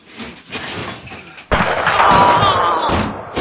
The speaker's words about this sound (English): Ha! Shot with your own pistol.